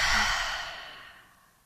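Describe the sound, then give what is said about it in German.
A single deep, closing breath from a meditation exercise: a loud, airy exhale that starts strong and then slowly fades out, with no voices. “dann lass uns mit einem tiefen gemeinsamen Atemzug schließen. Atme nochmal über deine Nase ein und dann über deinen Mund aus.”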